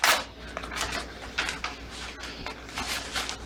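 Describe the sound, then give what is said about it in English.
An envelope being torn open, heard as a series of short, papery ripping bursts of uneven loudness. “Somewhat nervously, Noah begins to tear the letter open.”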